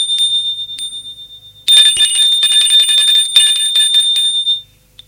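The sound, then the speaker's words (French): A doorbell rings again. A faint steady tone comes first, then a loud, sustained metallic rattling ring lasts about three seconds before it stops abruptly. “L'on sonne encore une fois.”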